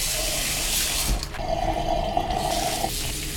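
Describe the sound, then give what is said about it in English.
Running tap water rinses chopped coriander, a steady rushing splash throughout, with a brief clatter and a slight change in the flow partway through. “I will chop up some coriander and wash it off that way.”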